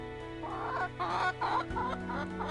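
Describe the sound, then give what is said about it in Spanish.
A chicken clucking: a few short, throaty clucks in irregular rhythm over a steady low hum. “el pollo”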